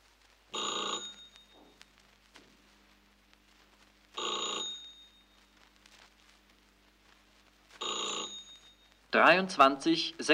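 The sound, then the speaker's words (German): A telephone bell rings for an incoming call, sounding three separate bursts of bright, rattling ringing, each about a second long, with a few seconds of near silence between them, before a different busier sound cuts in at the end. “Leonard ruft Konrad wegen des Termins an.”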